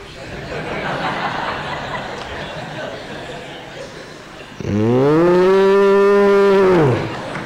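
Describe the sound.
A cow gives one long, loud, deep moo with a steady pitch that trails off at the end, after a stretch of soft rustling background.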